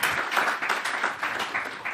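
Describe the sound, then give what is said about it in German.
Audience applause welcoming a guest, a dense, even wash of many hands clapping that holds at a steady, fairly loud level throughout with no voices standing out. “Einen herzlichen Applaus für ihn.”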